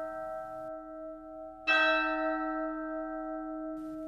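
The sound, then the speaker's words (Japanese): A single deep church bell strike rings out over the lingering tone of an earlier toll. Its bright overtones swell suddenly, then fade slowly into a long, sustained, humming ring. “アンデルセン童話、鐘の音。”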